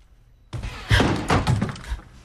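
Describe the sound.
A slightly ajar door is kicked open: a sudden loud impact breaks the quiet, then a dense, banging crash runs on for over a second before fading.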